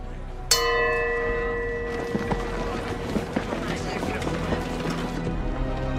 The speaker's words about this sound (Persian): اون صدای زنگ کوفتی برای چیه؟